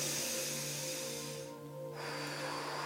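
A deep inhale through the nose during a guided breathing exercise done with eyes closed. The soft, steady airy rush lasts about a second and a half, then briefly drops away, all over a constant low hum.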